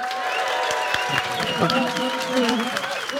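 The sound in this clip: A live audience applauds at the Chalk History Festival near Salisbury. Dense, steady clapping holds an even loudness for the full stretch, with crowd voices mingled through it.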